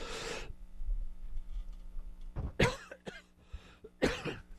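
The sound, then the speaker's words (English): Coughing and throat clearing in a few harsh bursts: one at the start, then two more separated by quiet pauses, with no talk in between. “Let me take a breath and clear my throat.”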